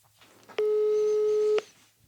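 Ringing tone heard while calling a friend by phone: one steady, sustained mid-pitched tone lasting about a second, with faint background noise before and after.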